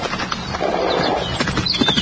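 A horse gallops past on a town street with its rider bent low. Quick, irregular hoofbeats clatter at a moderate level.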